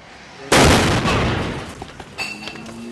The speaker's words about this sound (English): that's the sound of our armored BMW exploding in a pillar of flame about 15 feet from where I was standing